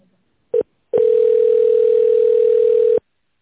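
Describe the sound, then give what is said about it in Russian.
Telephone tone as a company call is transferred: a brief beep, a short pause, then a long steady mid-pitched tone holding for about two seconds before cutting off, with no voices. “Наберите добавочный номер, или ваш звонок будет переведен на секретаря.”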